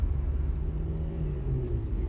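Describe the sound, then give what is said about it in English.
A car speeds along with the pedal floored at about 90 miles per hour, giving a heavy, continuous low rumble. It stays steady and fairly loud throughout, with no voices. “The pedal is all the way down. The car is going about 90 miles per hour.”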